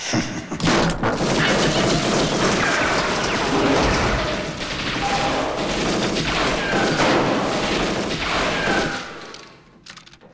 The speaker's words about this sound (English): Durant has him in the crosshairs of the minigun. Peyton avoids the explosion by sliding down a ladder into the safety of his lab.